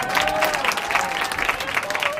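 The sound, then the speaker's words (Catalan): Audience applause, a brisk, steady patter of many hands clapping for about two seconds. “Ya puede aplaudir, ¿eh? ¡Bien!”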